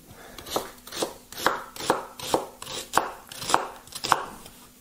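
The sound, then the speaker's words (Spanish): A knife chopping two new sweet onions: many sharp, evenly spaced chops in a steady rhythm, each a crisp knock on the board, with no talk. “Vamos a picarlo aquí así. Tampoco hay que picarlo. Son dos cebollas, ¿eh? Son cebollas nuevas. Eso se le llaman cebollas dulces.”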